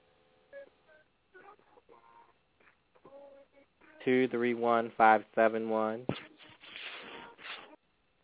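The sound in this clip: Short telephone keypad tones from pressing one sound faintly at the start, a few brief electronic beeps, followed by louder talk.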